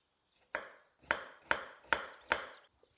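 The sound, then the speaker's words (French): A knife chops an onion into small cubes, with five crisp, sharp chops in a steady rhythm. The chops are fairly quiet and there is no talking. “je pose mon oignon sur ma base et je vais le découper en cubes.”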